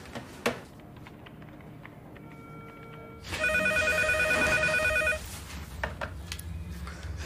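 A telephone rings in one steady, warbling electronic burst of about two seconds, standing out clearly over a quiet background with no talk.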